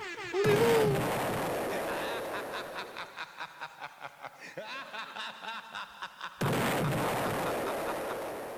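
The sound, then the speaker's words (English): Bomb explosion sound effects, many sharp blasts in quick, steady succession, set between longer stretches of louder, denser sound. “how many bombs you going for? I know, I dropped too many bombs.”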